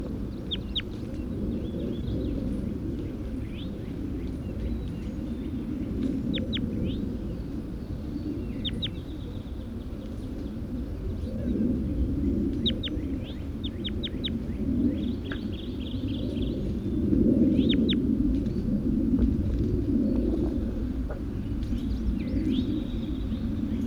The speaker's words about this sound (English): Start recording bird 81.